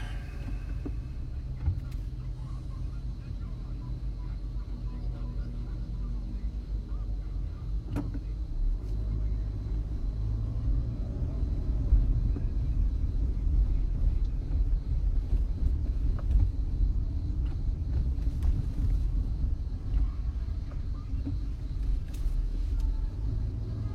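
Road traffic heard from inside a car in slow traffic: a steady low rumble of engine and road noise runs throughout, with a few faint clicks and knocks over it.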